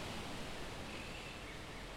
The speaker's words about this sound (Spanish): En Mar del Plata el viento suena y se confunde con el ruido del mar.